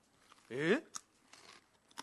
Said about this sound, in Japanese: タロイモってなんだろうね。初めて食うやつをとりあえず今初めて食べてるんだ、スティックとして。